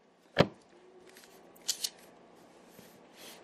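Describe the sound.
Pages of a Bible being turned: one sharp, crisp paper flip, then a quick pair of lighter flips and faint rustling, all fairly quiet and without talk.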